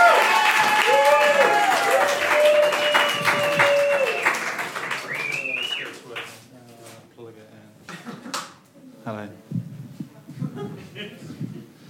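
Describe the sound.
Audience applause at a live stage show: dense clapping with a voice over it at first, thinning out into scattered, uneven claps.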